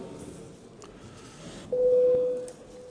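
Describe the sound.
Electronic signal tone calling members to a parliamentary vote: a single steady, mid-pitched tone of under a second rises briefly above a faint, murmuring chamber background.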